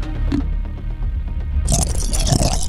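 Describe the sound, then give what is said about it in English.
Crunching and grinding of Lego bricks being chewed. It makes a continuous, dense clatter of plastic clicks that turns harsher and brighter toward the end. Nobody speaks. “What's that noise? It's chewing Legos.”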